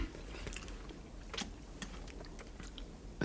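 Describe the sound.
Wet chewing and biting on jam that still has seeds in it, a steady stream of soft smacks broken by many crisp little clicks.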